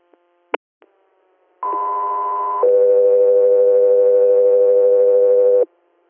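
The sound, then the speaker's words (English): Radio dispatch alert tones page an air medical crew. Two faint clicks come first, then a steady tone holds for about a second and is followed by a lower tone that runs about three seconds before cutting off. “stand by for tones”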